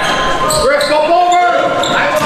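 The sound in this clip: Basketball dribbled during a game as a player drives into the paint: a few bounces against steady court noise, with no voices distinguishable.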